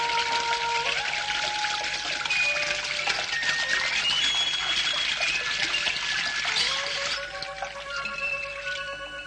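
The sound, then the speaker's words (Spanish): Water runs as a woman washes her hands, a continuous pouring trickle under sustained musical tones, thinning a little in loudness near the end. “Otro día, una mujer se lava las manos.”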